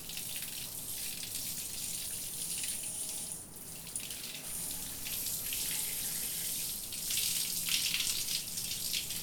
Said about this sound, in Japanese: 泡残りがないようにしっかり流すからね。 ちゃんと流さないと逆に頭皮に良くないんだよ。